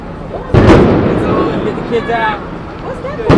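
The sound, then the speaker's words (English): Concussion grenades and tear gas launched by police at a street march during a Republican Convention: two sharp, loud blasts open and close a stretch of rumbling noise, with some higher whistling sounds between them. “Those were the sounds of concussion grenades and tear gas being launched by police during a peaceful march on the second day of the Republican Convention.”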